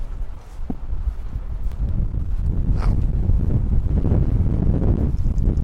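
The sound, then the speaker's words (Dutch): Strong wind buffets the microphone at an outdoor camp, producing a loud, steady low rumble that grows slightly heavier toward the end. “je hoort ondertussen dat de wind... behoorlijk tekeer gaat.”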